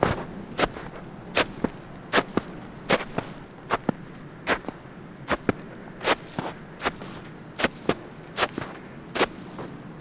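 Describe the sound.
Footsteps crunching on wet, humid snow on a steep climb toward the Col de Bazet: many sharp, evenly spaced crunches in a steady walking rhythm, with no talk.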